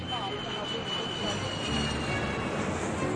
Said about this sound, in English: Welcome on board as Airbus 319.